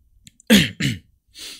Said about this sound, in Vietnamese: Họ đọc một tập mà họng đã ho như vậy rồi.